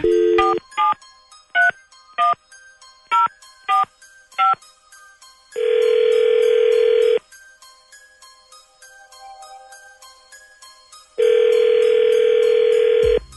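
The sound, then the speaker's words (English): Telephone keypad tones from dialing a number: a quick series of short beeps, then two long, steady ringing tones separated by a quiet pause. “Okay, let's find out. Dialing at random.”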